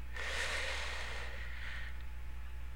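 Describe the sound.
A single long, deep breath, a soft, airy rush that swells and fades over about two seconds above a steady low hum, with no voice.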